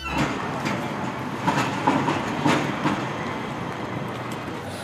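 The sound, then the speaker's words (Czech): A train at a main railway station gives a continuous loud rumbling roar with a rhythmic clickety-clack of wheels running steadily throughout. “Na hlavním nádraží”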